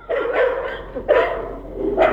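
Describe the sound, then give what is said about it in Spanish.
Dogs barking on a street where many loose dogs of mixed breeds roam: three loud, rough barks, the first drawn out, the next two shorter, with no talk. “Sí, este es el de los perritos. Sí, aquí podemos ver la gran cantidad de canes”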